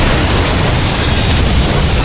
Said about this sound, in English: Dean struggled to maintain his balance, watching Connor fly through the air as the explosion ripped the front desk to shreds and smashed the front of the aquarium